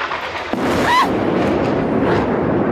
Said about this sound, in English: This is a missile attack